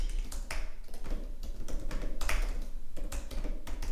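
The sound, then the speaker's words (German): Typing on a computer keyboard while searching online: many quick, irregular clicks and taps in uneven bursts, fairly close and crisp, with no voices over them. “ich will jetzt hier nebenbei ohne Scheiß mal Google aufmachen, weil, warte, ich muss hier ganz kurz was, was nachgucken.”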